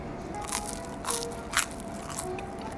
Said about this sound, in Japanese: これバケットにね、このオイルをつけるとまたうまいんですよね。